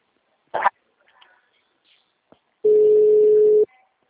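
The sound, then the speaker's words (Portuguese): Telephone tones as a caller to a bank's card service line is transferred: a brief noisy burst, a few faint clicks, then one steady pure tone lasting about a second. “O Banco Macho agradece o contato, sua ligação está sendo transferida.”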